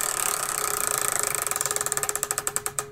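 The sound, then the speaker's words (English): Clicking of a prize wheel being spun: a rapid run of ratcheting ticks that gradually slows as the gaps between clicks widen toward the end, loud and alone without talk. “let's go ahead and let's spin the wheel of tech to see what our category is this”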